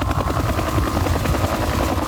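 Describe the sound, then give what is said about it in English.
A Huey helicopter passes over the region at night, its rotor chop and engine roar loud, dense and continuous, with a steady thumping texture throughout. “Is that giving you a bit of PTSD about last night, the sound of the Huey helicopter flying back and forth over the region?”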